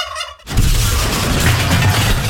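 Turkey gobbling: a brief harmonic call opens, then a loud, dense, raspy gobble bursts in and rattles on without pause to the end.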